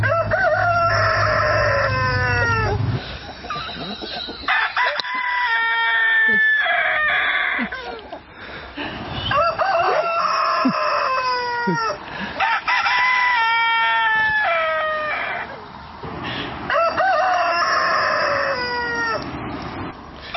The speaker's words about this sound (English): That's the neighbor's crowing cock that kept our guests awake all night